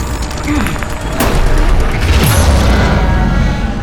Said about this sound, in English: I suggest another grenade.